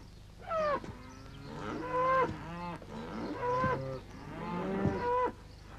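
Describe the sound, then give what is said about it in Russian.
Cows lowing in a pen, a series of loud, drawn-out moos with a rich, harmonic tone, separated by brief pauses, with no talk. “В загоне стоят коровы.”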